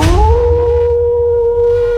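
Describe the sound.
A wolf howls in one long, loud, sustained tone that rises briefly at the start and then holds steady and alone to the end.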